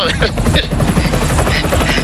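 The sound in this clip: A helicopter sound effect plays loud throughout, a steady rapid rotor chop with someone talking over it.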